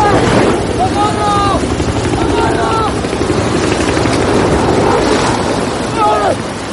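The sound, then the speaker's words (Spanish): Helicopter rotor noise over heavy surf as waves crash against a rocky crag at sea, a dense, continuous roar with no clear breaks, while thin whistling tones rise and fall faintly above it. “Un helicóptero se marcha sin haberlo visto.”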